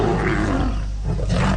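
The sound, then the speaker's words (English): A lion roars in Uganda, a loud, deep, rough roar that holds steady for the whole clip, with no voices over it. “That sound is becoming harder to hear in Uganda. The country now has just 291 lions,”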